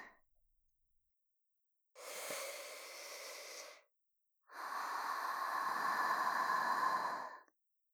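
A deep breath taken to calm down: two long, breathy rushes of air with a short silence between them, the second one longer and slightly stronger, quiet and alone.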